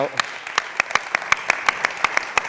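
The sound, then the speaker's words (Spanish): Audience applause at an awards gala, many sharp claps at a steady, even pace, fairly loud with no voices over them. “Un aplauso para Juan Antonio Lara”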